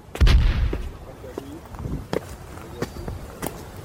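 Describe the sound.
Artillery gunfire in a dramatized battle opens with one heavy booming blast, then a string of sharper, fainter shots cracks out irregularly over the rest of the stretch.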